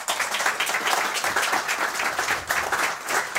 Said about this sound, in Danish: Giv dem lige en kæmpe stor hånd.